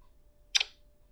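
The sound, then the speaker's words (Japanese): Camera shutter snapping a photo of toys: one quick, crisp double click, standing alone over a faint low hum. “今日使うおもちゃの写真を撮っときましょうね。よいしょ。撮りまーす。”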